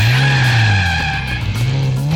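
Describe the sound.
A car drives and skids in a racing video game, its loud, steady engine whine dipping in pitch, then climbing again near the end, with tire noise mixed in.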